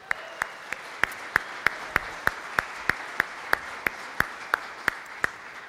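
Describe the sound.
A church audience claps in steady unison, sharp beats falling at an even rhythm over a soft background hiss.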